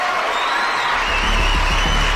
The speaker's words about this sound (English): A round of applause for that sister of the.